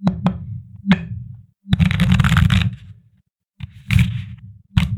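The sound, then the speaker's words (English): Tarot cards are shuffled by hand in a few separate bursts of papery riffling and soft slapping. Short pauses fall between the bursts, and one near-silent gap sits midway. “But before we get into it, let's pull our tarot card.”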